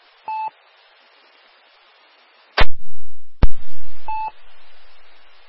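Telephone dialing tones as a call is placed: one short, steady two-pitch beep at the start and another near the end, with sharp clicks and bursts of hiss between them.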